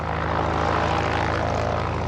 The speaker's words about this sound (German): Eine kleine zweimotorige Propellermaschine hebt von der Startbahn ab.